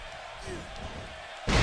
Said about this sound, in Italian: Ambrose porta Styles subito a terra.